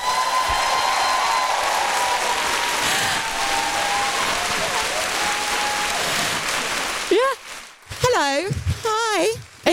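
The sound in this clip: Audience applause welcomes a guest onto a stage as a dense, steady clapping roar that lasts about seven seconds, then breaks off as a voice starts talking.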